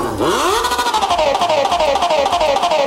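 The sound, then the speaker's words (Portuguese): A motorcycle engine revs loudly, its pitch climbing sharply into a roaring whine and then sliding slowly downward as the throttle eases, the rev held strong throughout. “Põe o capacete, sobe em cima da motona. Solta o barulhinho que as novinhas se apaixona.”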